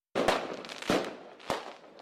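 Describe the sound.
Firecrackers go off in three sharp bangs, each followed by a crackling burst that fades before the next, evenly spaced and fairly loud.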